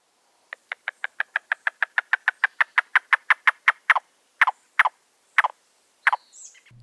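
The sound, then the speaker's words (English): A yellow-billed cuckoo calls with a long, rapid run of hollow clucking notes that slows into a few widely spaced notes near the end, clear and alone. “okay, so that's the yellow-billed cuckoo.”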